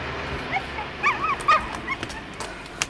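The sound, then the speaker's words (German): A small injured dog, hit by a car and hurt in its left hind paw, whimpers. Several faint, thin, high whines come at irregular intervals over a low background hiss. “Oh, du ein kleiner Hund. Ach, den hat der Idiot überfahren. Die linke Hinterpfote.”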